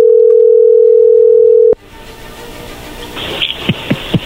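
A telephone call is dialed: a steady dial tone hums for under two seconds and stops at a sharp click. Quiet line hiss follows, then a few short dialing beeps near the end.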